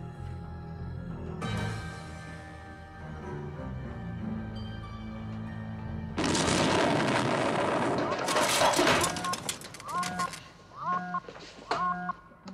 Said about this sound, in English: They're coming right through our defense shield. Oh, what was it? An energy bolt of enormous power.